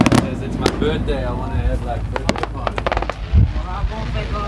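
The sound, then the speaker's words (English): Fireworks burst at a nearby resort, a run of sharp cracking bangs and pops in irregular bursts, with people talking over and between the explosions. “So what we have here is some fireworks at the nearby Club Med”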